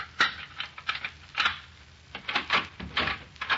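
An apartment door being unlocked with a key and opened: a fast run of sharp metallic clicks and rattles, then quieter knocks and clatter, with no talk over it.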